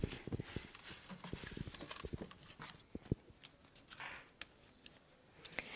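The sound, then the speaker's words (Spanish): A lottery drum is moved during a public draw for Christmas stall spots on the Plaza de Armas, giving a faint, steady clatter of many irregular sharp clicks and rattles that sounds almost like hooves. “Le voy a correr la tómbola más allá para que le quede más cerca.”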